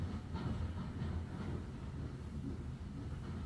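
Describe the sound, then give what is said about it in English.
A train with its engine and carriages crossing a bridge high over a glen gives a low, continuous rumble that stays loud and unbroken throughout, with only a faint hint of wheel clatter. “The engine train reaches the bridge,”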